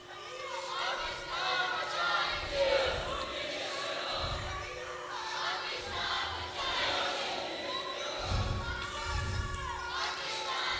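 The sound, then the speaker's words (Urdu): Women chanting slogans together at a rally, a crowd of voices rising and falling in loud repeated surges. “دیکھیے, میری بہنیں نعرہ لگا رہی ہیں پاکستان بنایا تھا, پاکستان بچا ہی نہیں.”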